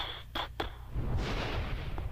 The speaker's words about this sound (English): boom of thunder